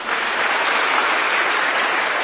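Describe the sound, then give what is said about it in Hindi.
Audience clapping loudly for a group of retreat participants: a dense, even wash of many hands with no single claps standing out, continuous for about two seconds. “तो भट्टी वालों के लिए जोर से ताली बजाओ,”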